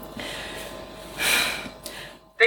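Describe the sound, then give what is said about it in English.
A single deep breath, a breathy inhale that swells and fades in the middle of an otherwise quiet stretch. “Deep breath. My breathing's working.”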